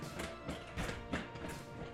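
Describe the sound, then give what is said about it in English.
Thumping of a chair as someone dances while seated, giving a rhythmic series of dull knocks at roughly even intervals. The knocks are moderately loud with a brief rustle between them, and no voices. “That's my chair. Okay. I'm doing some chair dancing.”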